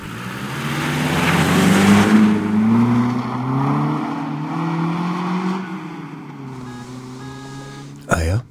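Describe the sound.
Engine of a mail carrier's vehicle driving off, a low, steady rumbling drone with gently shifting pitch, heard under people talking.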